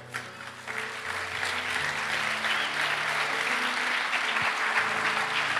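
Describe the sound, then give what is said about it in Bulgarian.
Congregation applause during a sermon, a dense, steady wash of clapping that rises at the start and holds evenly throughout, with low steady tones faintly underneath. “О, ако ръкопляскаш, ръкопляскай, като че разбираш.”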